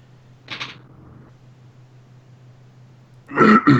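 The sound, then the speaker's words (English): Throat clearing by a sick person: a short rasp early on, then a louder double rasp near the end, over a faint steady low hum. “No, I was just clearing my throat because I'm sick. not every clearing of my throat means something right now.”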